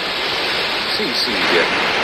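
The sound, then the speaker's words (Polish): Water splashing down the cascade of the Trevi Fountain: a steady, dense rush of falling water that holds at an even, fairly loud level, with only slight swells and no pauses throughout. “Z drugiej strony ta woda ma pełno drobnoustrojów. Jeszcze ten wodospad.”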